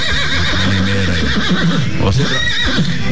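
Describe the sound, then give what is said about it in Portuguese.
A mare gives one loud, quavering whinny, its pitch wavering up and down over about a second, with talk alongside. “Ai, olha a minha eguinha.”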